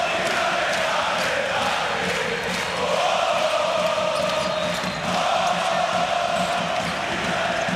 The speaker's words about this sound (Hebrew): תשמעו את הקהל ברקע, טירוף.